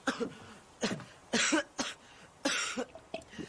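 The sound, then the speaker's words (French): Harsh, raspy coughing and choking from a young man struggling to breathe: a few loud bursts of uneven length with short breathy gaps between them, with no talk. “Il est en train de se Il s'étrangle Aidez ce garçon”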